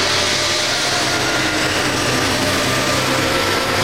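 An old, rickety factory machine in a workshop smelling of oil and iron runs continuously: a loud, dense, unbroken mechanical roar and clatter with a low rumble beneath, steady from start to end with no talk.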